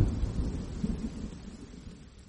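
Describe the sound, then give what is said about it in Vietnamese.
Thunder from a lightning strike in a storm rolls as a faint, low rumble that gradually fades away, with no voices. “Khoảnh khắc một tia chớp lóe lên làm cho ai nấy đều giật mình.”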